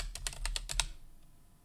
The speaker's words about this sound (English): Sorry, I cannot type. I type terrible.